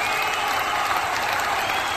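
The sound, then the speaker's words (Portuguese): Steady audience applause, a dense, even wash of clapping that holds at a constant level for the whole clip with no talk over it. “Palmas pra ele.”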